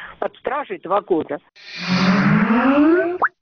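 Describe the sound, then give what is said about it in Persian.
Skype's startup chime plays after a short stretch of talk: a smooth, bubbly tone sweeping steadily upward in pitch, then cut off as speech resumes. “این صدای باز شدن برنامه کامپیوتری اسکایپ است که به هر شخص امکان می دهد بی پول با دیگران در تماس تلفنی شود.”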